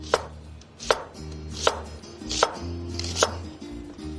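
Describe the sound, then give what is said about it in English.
A knife slices food into thin half moons on a board, five crisp, evenly spaced chops at a slow, steady rhythm over a constant low tonal hum. “And we'll just slice these into thin half moons.”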